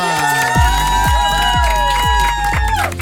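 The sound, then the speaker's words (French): A studio audience cheers and whoops loudly over a bright musical jingle, with a falling tone repeating about every half second. “Fête! faites du bruit pour Lude.”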